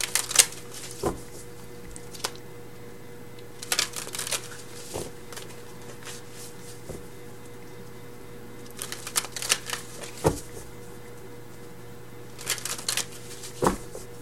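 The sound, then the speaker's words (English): Tarot cards are shuffled and drawn in quiet, scattered bursts of papery riffling, broken by a few sharp snaps and taps with pauses between. “But let's get some additional cards.”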